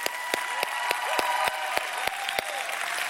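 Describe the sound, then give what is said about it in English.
Church audience in an arena clapping hands at the start of a service, a steady bed of applause with sharp individual claps popping out at regular intervals. “Come on, let's put our hands together.”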